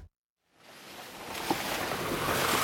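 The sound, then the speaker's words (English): Rumbling road noise from a vehicle driving on winding dirt mountain roads in northern Nepal. A steady, broad roar begins after a brief silence, swells, then holds at a constant level. “What you're hearing are the winding, dizzying dirt roads up the mountains of northern Nepal.”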